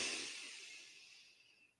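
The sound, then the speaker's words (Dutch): A deep breath drawn in through the nose, heard alone as a soft, airy hiss that is strongest at the start and fades steadily over nearly two seconds. “Adem diep in door je neus.”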